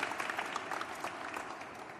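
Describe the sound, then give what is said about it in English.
Audience applause at a ceremony: a dense, steady clatter of many hands clapping throughout, even in loudness, with no voices rising above it. “Let's give them a round of applause.”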